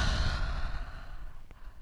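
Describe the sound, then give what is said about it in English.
A slow exhale out through the mouth during a yoga breathing flow: a soft, breathy rush of air that gradually fades, ending in a faint click, with no talking. “Have a breath in through your nose. And breath out through your mouth.”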